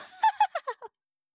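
A hen clucks after laying an egg, giving five short, sharp clucks that step downward in pitch before stopping into silence; fairly faint overall.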